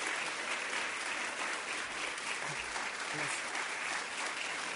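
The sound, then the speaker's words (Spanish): Audience applause welcomes a human rights official onto the stage at a formal government event, a dense, steady clapping that stays loud and even throughout without letting up. “los acompañamos con un aplauso agradable para poder escucharles”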